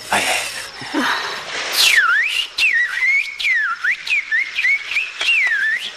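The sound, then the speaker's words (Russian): A person tries to whistle, producing many short wavering whistle tones that glide down and back up in a repeated swooping pattern, each separated by brief gaps, fairly loud and with no talk. “Пытается свистнуть. Свистеть я никогда не умела.”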